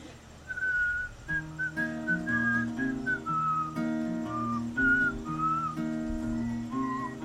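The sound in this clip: Audience members whistle a bright melody along to a live song, the whistled line riding above guitar and other instruments in a steady, lilting rhythm with short breaks between phrases.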